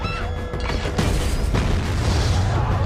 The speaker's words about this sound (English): The village is attacked with rocket fire. A rocket is primed.